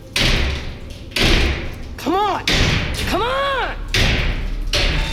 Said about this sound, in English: The steel frame is loose on its hinges. I kick at the bars,